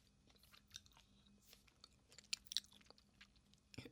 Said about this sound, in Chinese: 让我吃完最后一个鸡腿，我们再看电影票哦。